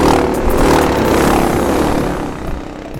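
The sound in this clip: A racing kart's engine, recorded onboard, makes a loud, steady droning roar with a rough, clattering edge. It holds nearly constant throughout and eases slightly toward the end.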